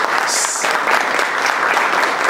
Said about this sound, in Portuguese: Uma grande salva de palmas então para todos.